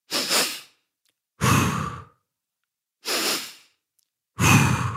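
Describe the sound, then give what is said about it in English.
A person demonstrates the physiological sigh, a double inhale through the nose followed by an exhale through the mouth. Four loud, airy breath bursts are separated by short silences, with no talk. “It is a double inhale through the nose and an exhale through the mouth. I'm actually going to give you a sample of what it sounds like.”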